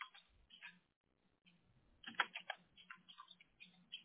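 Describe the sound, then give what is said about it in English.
Typing on a computer keyboard while entering a search for wood floors: quiet, rapid, irregular key clicks in short bursts with brief pauses, the busiest flurry coming toward the middle. “I'm gonna type in wood floor.”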